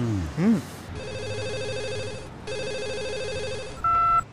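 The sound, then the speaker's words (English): An office telephone rings in two long electronic bursts of a steady, buzzing tone separated by a short gap, followed by a brief higher beep at the end. “Sorry, that was a phone from my office.”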